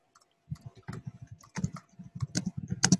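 Rapid typing on a computer keyboard: many quick, light key clicks in an uneven patter, fairly faint, with no voices.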